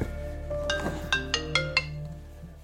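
A telephone rings with a melodic ringtone as a couple waits at a big kitchen table for a doctor's call: a few bright, clear tonal notes in quick succession over a steady low hum, at moderate volume.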